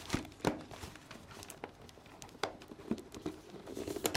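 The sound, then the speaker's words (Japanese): Crinkly rustling of a wrapper being opened on a nut tartlet sweet: irregular soft crackles with a few sharper snaps, moderately quiet and with no voices. “プロのお菓子ちょっとねバーって開けちゃいましょうか。ナッツのタルトレット、へえ、おいし、なんだろう、開けてみよう、よいしょ”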